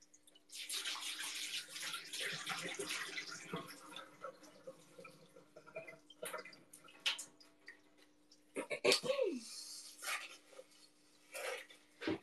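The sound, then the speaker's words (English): Water drains with a rushing, gurgling flow that holds steady for several seconds, then breaks into scattered splashes, drips and small clinks. “I'm gonna drain the water.”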